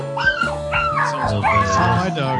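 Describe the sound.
A dog whimpers and yips in high, wavering cries, many short yelps rising and falling in pitch over talk.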